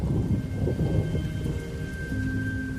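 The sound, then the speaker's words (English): Heavy rain pours down steadily with a low rumble of thunder underneath, a dense continuous hiss with no voices. “smiles as the rain cascades over her face and hair”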